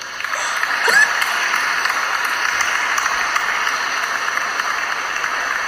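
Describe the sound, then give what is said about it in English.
Applause sound effect played for a guest, a dense, even wash of clapping that holds at a steady loud level throughout. “You deserve one of these for sure, because even though we do not have an audience right now, even though we don't not have a live audience, you are definitely worth the applause.”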